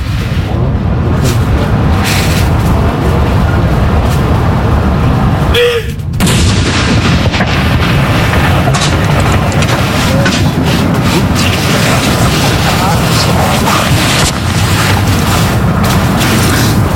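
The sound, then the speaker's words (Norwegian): Cannon fire from a gun salute honoring a deceased king, a heavy, loud, continuous low rumble and booming that fills the whole stretch without clearly separated shots. “Kommandanten som leder denne avfyringen. Hun står rett bak de som, som avfyrer disse saluttene. Andre kanon!”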